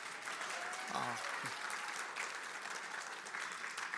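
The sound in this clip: Audience at a Christmas-themed gathering cheering, clapping and making noise, a steady wash of applause with a brief shout near the start, sustained evenly until the end.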